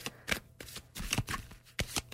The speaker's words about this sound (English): I decided we're going to pick one more card